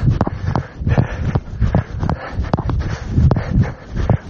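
Footsteps of a hiker walking along an outdoor trail. Many steady, crunching steps fall in an even stride, with a loud, continuous scuffing and rustling texture.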